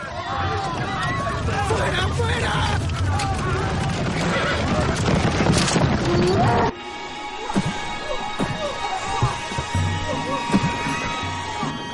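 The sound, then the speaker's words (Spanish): Horses neigh and hooves clop amid crowd hubbub as carriages carrying councillors and ministers speed through people, some riders on horseback. A dense, loud clamour fills the first part, then drops abruptly to quieter scattered hoof and crowd sounds, with talk present. “Varios carros con los consejeros y ministros circulan veloces entre la gente. Algunos van a caballo.”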